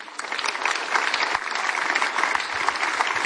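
Applause from an audience greeting a women's band as it is introduced, a brisk, crackling patter of many hands clapping at an even level throughout with no voices.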